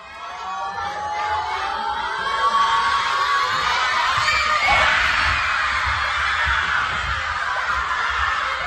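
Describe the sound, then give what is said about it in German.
Schoolchildren cheer at school as a World Cup match kicks off, Austria's first in 28 years; a sustained, loud swell of high-pitched shouting and cheering with low thumping underneath. “Und die Kids konnten freiwillig quasi früher in die Schule kommen und da das Spiel gucken. Und nach dem Spiel, da startete dann der offizielle Unterricht. Und beim Anpfiff des ersten WM-Spiels für Österreich seit 28 Jahren klang das dann so.”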